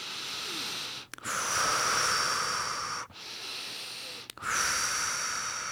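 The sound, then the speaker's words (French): Deep, slow breaths during a guided relaxation exercise: a few long, airy rushes of breath, each steady and sustained, separated by brief silent pauses. “Et avant de rouvrir les yeux, nous respirons plusieurs fois profondément.”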